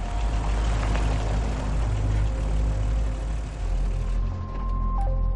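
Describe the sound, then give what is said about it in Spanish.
Car approaching, heard as a steady low engine rumble with broad, noisy texture that stays at an even loudness throughout. “Un coche se acerca.”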